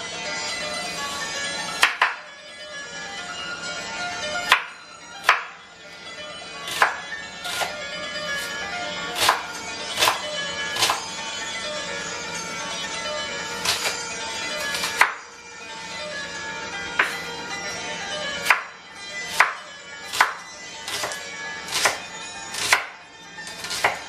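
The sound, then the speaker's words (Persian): A cleaver chops an onion finely for kebab: many sharp, loud knocks of the blade at an uneven pace, with quieter scraping between strikes. “ما شروع میکنیم الان فعلا با خورد کردن و ساتوری کردن این پیاز.”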